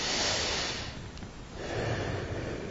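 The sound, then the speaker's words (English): A deep breath in and a slow breath out, performed by a storyteller acting out a king relaxing on a rooftop after dinner: a long, airy rush of breath that dips midway and then swells again, with no words. “King David sort of inhales deeply”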